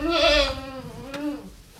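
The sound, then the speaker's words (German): Young goat kids bleat on a goat farm during kidding season: two wavering, nasal bleats, the first louder and drawn out, the second shorter and softer. “Die Ziegenlämmer sind niedlich und zutraulich. Sie kuscheln sich lieb aneinander, suchen noch wackelig stapfend nach der Mutterzitze.”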